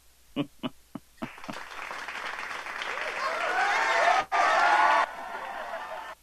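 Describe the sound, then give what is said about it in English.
Audience applause for a performer at a live comedy show: a few isolated claps, then dense sustained clapping with whoops and cheers that briefly drops out and resumes. “For Chris, put your hands together for Chris.”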